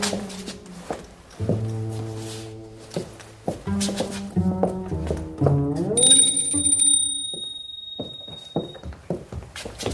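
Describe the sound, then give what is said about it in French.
A hand bell rung in a lady's residence to summon a servant gives a bright ring with lingering high tones near the end, after a stretch of sustained pitched tones. “Madame a sonné.”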